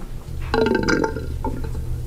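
A dry shower in an apartment with no water coming out gives a brief bubbly gurgle like a small burp, a short sputter followed by a fainter trailing gulp.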